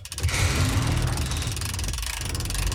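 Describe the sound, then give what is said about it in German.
A hand-cranked lift platform lowers with loud, steady mechanical grinding and rattling, a continuous whir with a faint rapid clicking texture running throughout. “Ich stell mich mal drauf und du bewegst die Kurbel. Ich fahre runter und dann kann ich auch gleich mal nachsehen, wie man den Mechanismus von unten steuert.”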